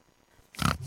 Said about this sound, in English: I'm Flora the Pig and I live at Tomar Retreat